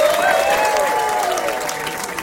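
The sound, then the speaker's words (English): An audience at a New York City jazz concert claps loudly and steadily to welcome a returning musician, the dense applause holding at an even level throughout. “Put your hands together. Welcome back to New York City, Mr. Rod Carter.”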